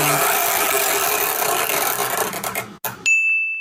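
A chore wheel is spun, giving a dense rattling, clicking whir that thins out. It stops and a bright, high ding rings on steadily until the end.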